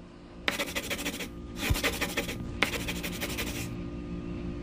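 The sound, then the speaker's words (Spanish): Pencil scratching on paper while dancers are drawn on a page: three long, rough, scratchy strokes separated by short pauses, steady and fairly loud, with no voices. “En la página undécima, vamos a dibujar 11 bailarines.”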